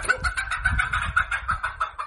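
Hens cluck in a nest box with steady, rapid, overlapping clucks that keep a busy rhythm throughout, fairly loud and without talk.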